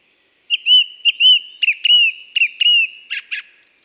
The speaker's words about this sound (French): Elle est perchée bien haut, vers la cime des sapins, et on la reconnaît tout de suite à la puissance de son chant.